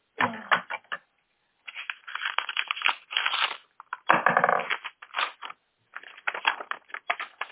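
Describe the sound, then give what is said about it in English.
Envelopes being torn open and their paper handled during a public bid opening: a run of crisp tearing, crackling and rustling bursts broken by short pauses, fairly faint and without talk. “just getting all the envelopes open”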